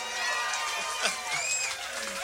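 A blues festival crowd applauds and cheers for the bass player, a fairly faint, continuous wash of clapping with scattered shouts and a high whistle-like whoop midway.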